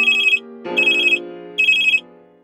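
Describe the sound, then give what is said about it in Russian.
A telephone rings late in the evening: three short, high trilling bursts, evenly spaced, each over a lingering lower ringing tone that slowly fades at the end. “А совсем недавно раздался поздний вечерний звонок.”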